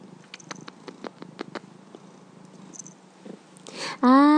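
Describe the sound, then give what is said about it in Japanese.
A cat purring: soft, rhythmic pulsing rumble at a low level, with a louder voiced sound breaking in at the close. “ゴロゴロ。甘えたかったのね。”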